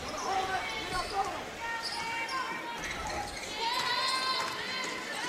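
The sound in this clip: Basketball dribbled up the court during a women's game: repeated ball bounces and running feet under a commentator's steady talk.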